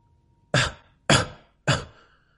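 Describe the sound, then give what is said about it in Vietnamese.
Three dry coughs from a weak old Taoist master just waking, evenly spaced and sharp, each a short rasping burst that fades quickly, with nothing else around them. “Từ Đạo Viễn ho khan vài tiếng rồi ngồi dậy yếu ớt hỏi tiếp”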